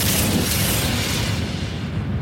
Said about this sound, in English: The cauldron explodes.